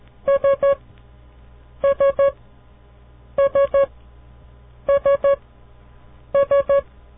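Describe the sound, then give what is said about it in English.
Morse code letter S, played as five groups of three short, evenly spaced mid-pitched beeps with clear pauses between the groups. “The next letter we will learn is the letter S. Dit-dit-dit. The letter S. Each time you hear this sound, try to visualize in your mind the letter S.”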